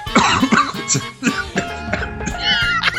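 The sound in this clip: Repeated coughing from someone who has just breathed in the wrong way: a run of throaty, partly voiced coughs and splutters in uneven bursts, fairly loud.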